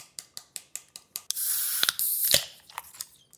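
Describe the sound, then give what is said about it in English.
A can of Guinness is opened: a run of even, light clicks, then a loud hiss of escaping gas lasting about a second, followed by a few faint clicks. “let's crack open the Guinness.”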